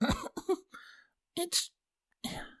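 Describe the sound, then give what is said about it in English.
A woman clearing her throat: several short, rasping, breathy bursts separated by brief pauses, fairly faint and heard alone. “Twilight cleared her throat and responded”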